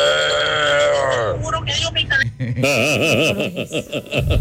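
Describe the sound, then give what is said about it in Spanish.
A person imitates a bull with the voice: a drawn-out low bellow that falls in pitch, then broken snorting noises and a wobbling, warbling lowing sound. “Mi talento oculto es hacer como un toro.”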